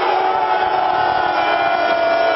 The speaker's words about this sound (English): Well, protesters also chanted slogans including "Not my king."